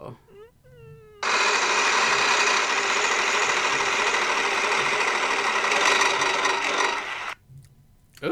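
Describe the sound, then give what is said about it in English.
A giant prize wheel on a wall spins with a dense, continuous rattle of rapid mechanical clicks that lasts about six seconds and then stops abruptly. A voice speaks briefly before the spin begins. “I'm going to go up to the wheel, the giant wheel on the wall. And so hold your breath, folks, because here we go.”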